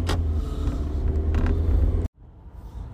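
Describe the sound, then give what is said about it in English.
Road noise inside a moving car: a steady low rumble with faint creaks, which cuts off abruptly near the end and gives way to a quieter hum. “So, I'm going to leave the background noise in here of driving. It's more realistic anyway.”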